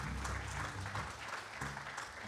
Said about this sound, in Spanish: Un aplauso enorme para ella.